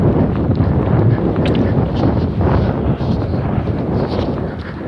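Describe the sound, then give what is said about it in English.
Wind blows straight into a microphone outdoors, a steady, loud, low roar of buffeting gusts that lasts the whole clip with no talking. “It protects my face a little bit from this, the wind blowing right in my eyes.”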